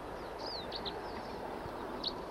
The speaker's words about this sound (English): Here's another bird who's also singing and calling. Wild bird song.